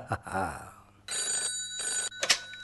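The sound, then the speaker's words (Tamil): An incoming call rings on a telephone as two long, loud electronic ring bursts separated by a short pause, with bright, steady tones throughout. “Hello, அடுத்ததா ஒரு கால் வருது, யாருன்னு பார்க்கலாம்.”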